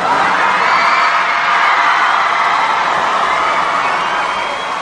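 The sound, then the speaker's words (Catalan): A crowd of about 1,500 children shouting and cheering with excitement as a visitor arrives in the square of Montserrat's abbey. The roar is dense, loud and steady throughout, with no pauses. “I amb aquests crits d'emoció de 1.500 nens que hi havia, ha entrat dins l'abadia.”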